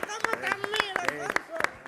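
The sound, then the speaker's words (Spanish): Rhythmic hand clapping in a steady flamenco palmas-style beat: a run of many sharp, crisp claps that keeps going under a voice that talks and sings. “Yo estoy de palmero aquí. Como sí, es verdad cómo aplaude, ¿eh? Aplaude con nota. Y luego solo con dos manos.”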